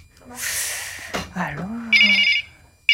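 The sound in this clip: A telephone rings for an incoming call, a brief bright electronic ring burst near the end. It follows a stretch of other noise and a sweeping vocal-like tone.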